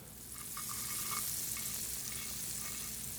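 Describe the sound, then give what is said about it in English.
An egg fries in a pat of melted butter in a skillet, giving a steady, bright sizzle with soft crackles that holds at an even level throughout, with no voices. “I'm going to fry this egg up in a pat of butter.”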